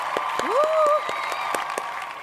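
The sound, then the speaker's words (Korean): Sparse audience applause, with a scattering of individual claps at irregular intervals that stays at a steady, moderate level. “박수 주세요. 박수.”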